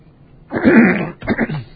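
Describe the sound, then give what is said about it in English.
Two hoarse coughs from a person giving a slide lecture. The first is longer and fuller, and the second is a choppier burst right after it. “Excuse me for this. I'm coughing quite a bit.”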